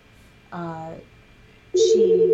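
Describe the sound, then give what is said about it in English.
A mobile phone rings with a loud, steady warbling electronic tone that starts abruptly after a brief voice. “Oh, sorry, that's my phone.”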